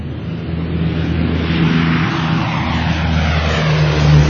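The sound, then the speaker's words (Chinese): Propeller fighter planes take off from Hankou airfield in 1938, a squadron of ten, with a steady, loud droning engine roar that swells slightly toward the end. “一九三八年二月十八日中午十二点四十五分，第二十一中队的十架驱逐机首先从汉口机场起飞。”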